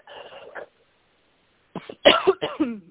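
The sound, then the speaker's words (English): Coughing from someone getting over a cold: a short bout of rough coughs, then a pause and a second, louder burst of several harsh, throaty coughs. “I said I'm getting over a cold and I'm coughing, so I might mute from time to time.”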